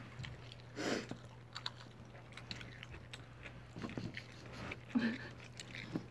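Chewing food while eating dinner at the office: faint, irregular soft bites and crunches repeating over a low steady hum, with no talk.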